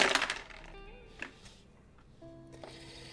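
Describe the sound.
Dice clattering during a Degenesis tabletop role-playing game roll, with a sharp burst of rattling at the start followed by a few faint, brief clicks.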